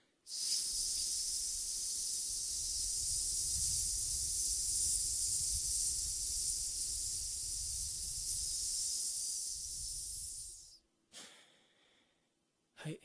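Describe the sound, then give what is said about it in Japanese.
Breathing during an abdominal oblique exercise for diaphragmatic breathing: one long, steady, hissing exhale sustained for about ten seconds, followed by a couple of short, softer breath sounds. “斜筋を縮めた時に息を吐くっていう練習です。吸って吐きながら”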